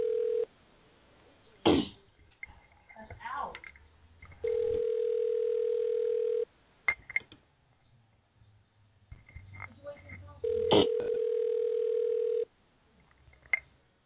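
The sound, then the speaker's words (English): Ringing tone of an outgoing telephone call over a narrow phone line: steady, even two-second tones separated by longer gaps, with the tail of one ring followed by two full rings and muffled clicks and throat noises between them. “First, we got to make a call. Hopefully, you'll answer this time.”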